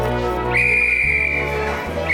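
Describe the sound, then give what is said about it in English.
A whistle blown by a matron beside an empty bed where towels were stuffed under the covers: one long, steady, shrill blast lasting about a second and a half, then the start of a second blast at the very end. “She gasps and blows a whistle.”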